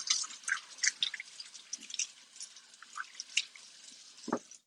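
Tap water running over a few skinny carrots being washed, a steady hiss of splashing and dripping, ending with one dull knock.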